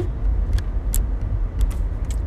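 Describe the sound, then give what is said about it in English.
Inside a moving car there is a steady low rumble of engine and road noise, with a few brief high ticks or rattles over it. “In the car right now, going to DOL.”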